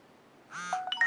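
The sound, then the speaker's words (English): A phone's text-message notification sounds for an incoming reply: a short, bright chime of a few quick tones after a near-silent moment. “And here we got a notification of a response.”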